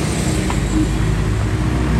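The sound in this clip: Road noise with an angkot minibus on the street, a steady and fairly loud rumble of engines and tyres that carries on without a break and without talk.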